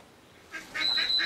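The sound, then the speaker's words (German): Nasal quacking of runner ducks at a bird park where chickens are also kept, a few short honking calls, faint and coming in only in the last half second. “Im Vogelpark Walsrode ist heute Showdown zwischen den Hühnern und den Laufenten.”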